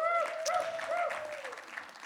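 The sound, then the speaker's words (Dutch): Warm applause from a church audience, soft and steady over about two seconds, with a voice-like tonal sound gliding above the clapping. “Kunnen we Deborah bedanken met een hartelijk applaus.”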